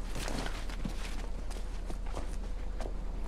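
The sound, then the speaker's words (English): Footsteps climbing stone steps up to a stage: several soft, irregular steps sit over a steady low hum and constant background noise, with no clear speech. “Peacekeepers escort Katniss to the stage. She mounts the stone steps toward the beckoning MC”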